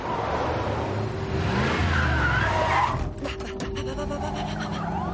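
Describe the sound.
An SUV speeding toward an exit: a loud, continuous engine roar with skidding tires and shifting pitch, turning to a rougher, rapidly pulsing noise in the final seconds.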